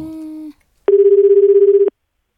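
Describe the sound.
A telephone call connects with line tones: a steady, plain tone lasts about half a second and stops, then, after a short gap, a louder buzzing tone sounds for about a second before cutting off.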